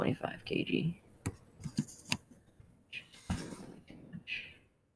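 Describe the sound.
Keys click on a computer keyboard as someone types in a few sharp, scattered taps, mixed in with a person talking.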